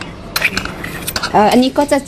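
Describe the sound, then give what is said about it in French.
Two large metal spoons shape a quenelle of rice, giving soft scraping and sticky squishing with a few light metallic clinks of spoon against spoon. “Pour le dressage, on va utiliser 2 grosses cuillères et on va venir faire une quenelle de riz.”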